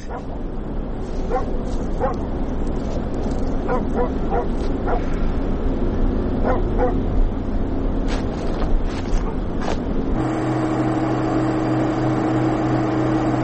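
A dog barks in many sharp, irregular bursts over a steady low engine-like rumble, and the background hum shifts near the end.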